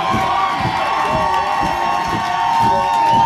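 An audience at a live music show cheers loudly, with sustained cheering, shouts and whoops.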